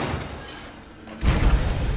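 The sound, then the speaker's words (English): A door opens from a darkened corridor into a large room full of dust-covered old clutter. Steady hiss gives way to a dull low thud, followed by a sustained low rumble. “Han makes his way down a darkened corridor and opens a door into a large room full of dust-covered ancient clutter.”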